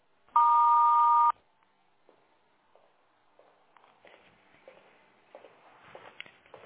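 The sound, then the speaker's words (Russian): An answering machine beeps before a voice message is recorded: one loud, steady, unbroken tone lasting about a second. It is followed by quiet, scattered clicks and soft taps. “К сожалению, вызываемый абонент сейчас не может принять ваш звонок. Если хотите оставить ему голосовое сообщение, пожалуйста, говорите после звукового сигнала.”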